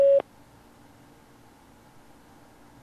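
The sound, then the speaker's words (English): A single short, steady beep tone from a phone chat line's message recording prompt, sounding at the very start and then giving way to quiet line hiss. “Please record your invitation for this caller to join you in a private conversation. Record after the tone.”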